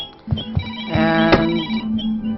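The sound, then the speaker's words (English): A telephone rings in a video game with a short electronic ring of bright, buzzy harmonic tones over a low steady hum, lasting about two seconds with no voices. “I hear a telephone.”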